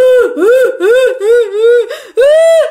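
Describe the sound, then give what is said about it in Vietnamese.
Infant-like crying heard at night: a run of loud, wavering, high-pitched wails that rise and fall in pitch, separated by brief breaks, with no talking. “rồi tiếng oe oe oe đứa nít nào khóc, thì bạn lại giật mình, lại giật mình.”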